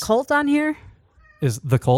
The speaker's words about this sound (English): The cat. She's playing with the chair.